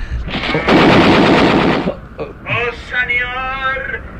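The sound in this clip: Machine gun fire used as a radio drama sound effect: one loud, sustained rattling burst, followed by a short voice.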